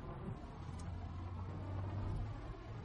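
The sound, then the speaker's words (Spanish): A car driving through the countryside, heard as a steady, faint, low engine and road rumble that stays even throughout with no distinct events. “Circulan en coche por el campo.”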